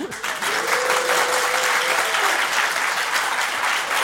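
Audience in the auditorium of the Palais des Beaux-Arts de Lille breaks into applause: dense, sustained clapping that starts abruptly and stays loud and even throughout.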